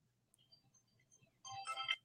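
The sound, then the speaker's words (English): A mobile phone ringtone: a few faint tones, then a bright, loud burst of melodic ringing near the end. “Oh, I got to turn my stupid phone off. Hey, put it on speaker. Is it a billionaire?”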